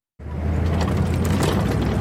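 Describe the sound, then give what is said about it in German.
Israeli army convoy vehicles drive at night without headlights across the border into southern Lebanon. A loud, dense rumble of engines and grinding mechanisms starts abruptly and holds steady. “Die Kolonne der israelischen Armee fährt ohne Scheinwerfer über die Grenze in den Südlibanon.”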